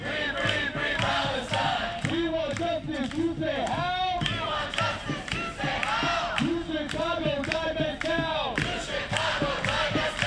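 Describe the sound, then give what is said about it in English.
Student protesters demonstrating at the University of Chicago chant together as a loud crowd, their voices rising and falling in a steady, rhythmic cadence that continues without a break. “I want to hear a little bit of what you were talking about a moment ago, some of the local student protesters who are demonstrating this week. We've got sound from the University of Chicago.”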